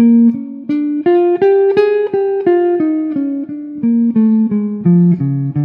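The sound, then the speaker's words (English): A solo instrument plays an improvised jazz line in straight, even eighth notes. The quick, clearly separated tones climb in pitch and then drift back down in a steady run. “So a straight eighth of some of the stuff I was just improvising there would sound like this.”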